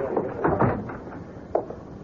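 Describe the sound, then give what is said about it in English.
A door being shut in a newspaper newsroom, heard as a few soft muffled thumps and rustles followed by one sharp click of the latch, then quiet. “Shut the door behind you.”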